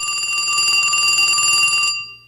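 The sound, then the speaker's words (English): A telephone ringing with a bright, trilling ring and rapid warble, steady and loud for about two seconds before it stops and fades out. No voices. “That's odd. What, the phone is ringing?”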